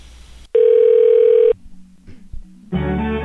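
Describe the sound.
A steady telephone dial tone sounds loud and unbroken for about a second, then gives way to quieter line noise before another tonal sound comes in.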